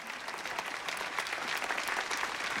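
Wedding guests clap together in a brief, dense round of applause, many hands overlapping into a steady, even patter with no voices on top.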